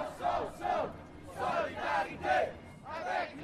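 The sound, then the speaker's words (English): About 5,000 student protesters chant at a Montreal march against the commodification of education. The shouted phrases come in a repeated, rhythmic pattern of short bursts and sound fairly faint. “This is the sound of international solidarity in Montreal on Thursday, November 22nd. About 5,000 protesters marched from Square Victoria yesterday”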